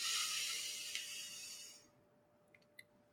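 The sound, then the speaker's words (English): Deep breath released during a guided breathing exercise: a long, loud airy exhale hiss that fades out. A few faint clicks follow in the quiet. “And one last breath, the biggest breath you've had all day.”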